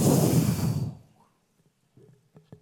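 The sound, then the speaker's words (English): A preacher breathes out hard into the microphone during a sermon, a loud, broad rush of air lasting about a second, followed by near silence with a few faint small sounds. “Give me some mic here. He breathed on them.”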